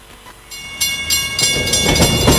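A train rolls along the rails, a broad rushing clatter that steadily grows louder, with rhythmic pulses of wheel noise building through the passage.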